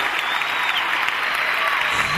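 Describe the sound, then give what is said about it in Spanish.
Concert audience applauding the band at a live show in Teatro Opera, a dense, steady roar of many hands clapping that holds at an even loudness for the whole stretch. “El primero va a ser que necesito un muy fuerte aplauso para toda la banda y toda la gente que está detrás de la banda.”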